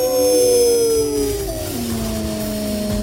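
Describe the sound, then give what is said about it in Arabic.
Wolves or dogs howl in long, sustained tones that waver and slide in pitch. Several howls overlap at different pitches, holding steady and fairly loud throughout with no talking. “بدأ صوت الديابة أو الكلاب ده يملى المكان كله.”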